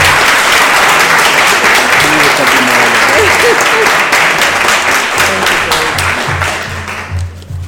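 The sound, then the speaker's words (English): Thunderous standing ovation applause at a board meeting: loud, dense clapping holds steady without a break, then tapers off in the last second. “a thunderous standing ovation”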